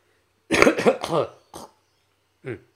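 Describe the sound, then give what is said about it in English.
A person clears phlegm from the throat: a loud cluster of harsh, rasping bursts, then two shorter separate clears after brief pauses, heard on their own without talk. “Sorry, a bit of phlegm in the throat there.”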